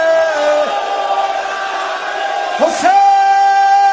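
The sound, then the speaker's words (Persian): A crowd chants 'Hussein' at a mosque during a mourning gathering, with people inside and others standing outside in the cold. Many voices hold a loud, drawn-out chant on sustained tones, and it dips briefly before a fresh swell near the end. “حسین های تو مسجدی ها بیرونی ها تو سرما دارن میگن حسین.”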